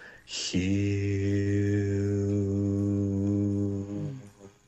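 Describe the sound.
A single voice chants the sacred word HU as one long, sustained, steady low tone rich in overtones. It holds alone for about three and a half seconds before fading out.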